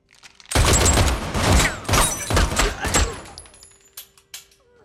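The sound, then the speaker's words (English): Rapid gunfire aimed at a man in a suit that may be bulletproof: loud, dense volleys of shots lasting a few seconds, then trailing off into a few faint clicks. “Shoot him in the face. Shoot me in the face. In the face?”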